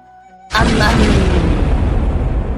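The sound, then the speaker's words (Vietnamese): A huge stone door rumbling as it is raised: a sudden loud booming onset, then a deep, dense rumble that holds steadily for about two seconds. “Trong tiếng ầm ầm rung động, cửa đá to lớn từ từ được kéo lên”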